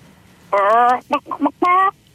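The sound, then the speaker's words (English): A caller on a phone line imitates a chicken clucking with a drawn-out squawk, a few quick choppy clucks, then another long squawk, all in a thin, narrow telephone tone. “Did you want to give me your best chicken impression?”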